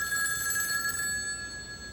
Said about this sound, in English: goes to answer the phone.